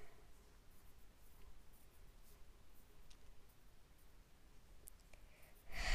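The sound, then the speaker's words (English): A pen writes inside a box drawn on paper, making faint, steady scratching strokes. A louder burst comes at the very end. “And we're going to write something in a box.”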